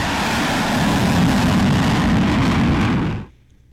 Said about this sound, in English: it looks to be like a fighter jet that's got his afterburners on